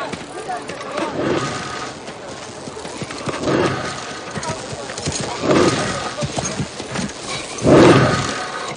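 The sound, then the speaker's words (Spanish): Horses tied beside a wagon in a Western setting make a few louder, rough bursts of sound over a continuous noisy background. “Delante, Butterfield advierte algo y se detiene. Los caballos. Los animales se encuentran atados junto al carromato.”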